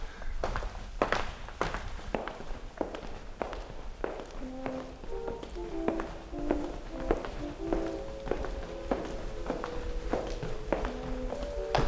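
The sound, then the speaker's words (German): Footsteps of people walking through a corridor and rooms on an old site, many steady steps tapping along with no talk. Faint ringing metallic tones join from the middle onward. “Und wenn wir jetzt laufen, dann laufen wir wirklich echt, ohne dass wir auf der Stelle gehen”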